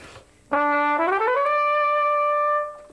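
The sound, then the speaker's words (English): An orchestra or band trumpet plays alone, opening with a held lower note, then climbing quickly upward into a long, bright sustained tone that fades at the end. “This is an orchestra trumpet, or a band trumpet, and it sounds like this.”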